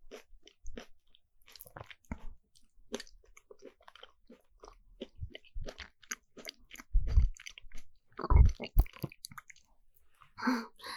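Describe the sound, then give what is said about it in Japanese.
Throat gulping while eating: a few soft, low swallowing thumps among quiet, crunchy chewing and bites, with faint clicks in between. “喉が鳴っちゃった。恥ずかしい。”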